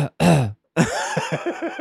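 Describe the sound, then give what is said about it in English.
A person imitates a child's cough: a short voiced grunt, then a longer rough sound broken into a few quick, repeated hacking bursts, loud and close. “And he's like, "No, I have a cough." And then he went,”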